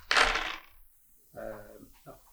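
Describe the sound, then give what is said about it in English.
Eleven dice rattle in a single short, loud burst as they are rolled for a tabletop game, followed after a pause by a voice speaking. “Wow, okay, I rolled 11 dice for one success.”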